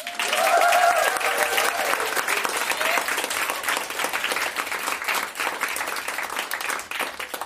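A live audience at a recording claps and cheers enthusiastically on request. Steady, dense applause and crowd noise fill the whole stretch, with a held whoop standing out in the first second or so.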